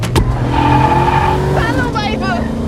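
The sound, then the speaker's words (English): A cruiser truck is thrown into gear and floored. Its engine roars loud and steady, and the revving tones climb toward the end as it speeds away. “Nick throws it in gear and stomps on the gas”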